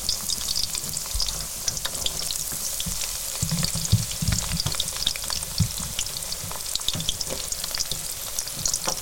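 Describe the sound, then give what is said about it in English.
Olive oil about an inch deep sizzles as food shallow-fries in a deep, wok-like pan, a constant dense crackle of many small pops at steady volume with no talking. “We have, I would say, about an inch of olive oil, so they're being shallow fried in our kind of deeper pan, I would say.”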